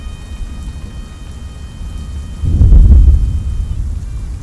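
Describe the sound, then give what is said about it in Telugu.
Thunder rolls through an unseasonal cyclone storm with wind and rain: a steady rushing hiss of rain and wind, then a deep, loud rumble swells midway and gradually fades back into the continuous downpour. “అకాలంగా వచ్చిన ఈ తుఫాను తన విశ్వరూపం చూపించడం మొదలుపెట్టింది”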